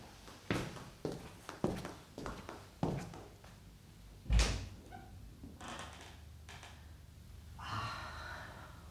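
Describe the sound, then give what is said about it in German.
A terrace door opens quietly: a run of soft clicks and knocks, then one heavier thump, followed by a faint steady rushing noise. “Sie öffnet die Tür zur Terrasse.”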